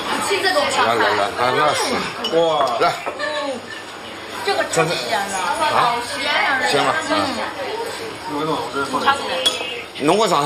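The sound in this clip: Dishes and cutlery clink as a plate of stir-fried rice cakes is set on the table in a restaurant. The light, scattered clinks sit under continuous talk and lively chatter throughout.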